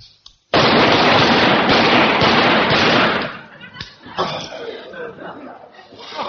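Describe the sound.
A rapid burst of gunfire on a rifle range makes a dense, roaring volley that lasts about three seconds, followed by quieter clatter and voices.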